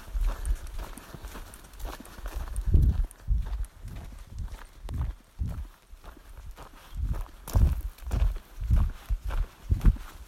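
A companion walks briskly along a trail, her footsteps landing in a steady stream of many quick, dull thuds and scuffs at a hurried pace.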